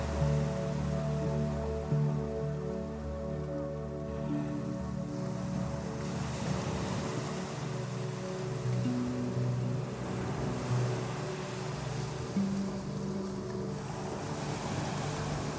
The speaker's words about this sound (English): imagine you are lying on a sandy beach with the tide creeping ever closer to you.